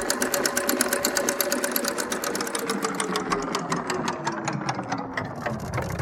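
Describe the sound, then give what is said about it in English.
A prize wheel spins, its pointer clicking past the pegs in a fast, even run of sharp ticks that continues without pause over a faint mechanical hum. “so I'll spin the wheel now.”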